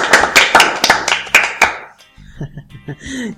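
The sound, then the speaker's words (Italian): A handful of sharp, quick handclaps at a dinner gathering, loud and close together, then they stop and a voice begins talking. “E ragazzi, alla cena dei regini, applausini.”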